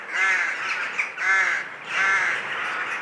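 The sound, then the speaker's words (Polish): A rook gives its contact call: three loud, harsh caws with a throaty 'ga' quality rather than a rolled sound, each one drawn out and separated by short gaps. “Krakanie, chociaż tam mało co R jest, bardziej takie ga. Gawron sam się nam przedstawia, co słyszymy zresztą ciągle w tle.”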